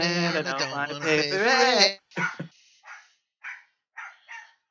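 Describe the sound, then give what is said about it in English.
A dog barks a few short, sharp times after a man finishes talking. The barks come in brief bursts with silent gaps between them. “Hold on a second. Fucking idiot dog.”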